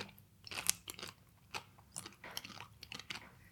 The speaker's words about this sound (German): Aber ich finde es ganz geil, wenn man oben reinbeißt, wie es so zerbricht.